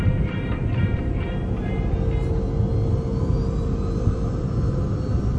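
An airplane taking off gives a steady, loud, low roar of engines that holds evenly throughout with no break.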